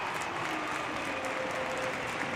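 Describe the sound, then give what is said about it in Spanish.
Stadium crowd at a Getafe football match applauding Cazorla as he comes on as a substitute: faint, even, continuous clapping spread across the stands. “Mira, el aplauso para Cazorla.”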